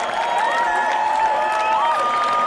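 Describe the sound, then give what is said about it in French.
A stadium crowd cheers and applauds at a women's match, a dense, steady roar. High sustained whistling tones ride over it throughout. “Encore une fois, voilà, le stade est en folie. Les joueuses se remettent tout doucement. Et voilà, tout le monde applaudit, même les joueurs s'entraplaudissent pour être sûr.”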